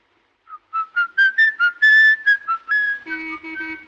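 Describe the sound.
A man whistles a tune in a 1931 film, a clear, loud melody of many short, separated high notes moving up and down, alone without talk, with a lower accompanying tone joining near the end.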